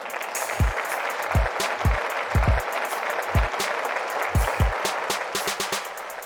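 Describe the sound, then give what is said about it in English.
Audience applause welcoming a show's host, a steady wash of clapping broken by repeated deep thumps and scattered sharp clicks. “So ladies and gentlemen, please put your hands together for the host of our show, Mr. Eli.”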